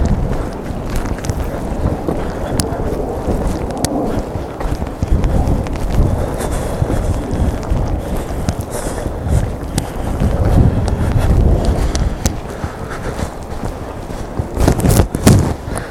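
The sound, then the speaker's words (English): Strong wind roars across an exposed hilltop, buffeting the microphone with a loud, continuous low rumble that swells and gusts. The roar grows rougher in the final seconds, and no one speaks. “Because we're coming up onto the top, so the wind's going to get a bit more ferocious.”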